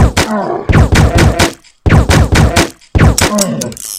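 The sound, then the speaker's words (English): Video game gunfire erupts in three bursts of rapid, punchy shots separated by short silences. Each burst is loud and dense, with quick thudding reports following one another in a fast rhythm. “Better shoot him before he gets me.”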